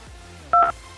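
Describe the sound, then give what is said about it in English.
A single brief telephone keypad tone, the two-pitch beep of one button press in an automated phone survey, sounding once over a low steady background hum. “please answer a couple of questions using your telephone keypad.”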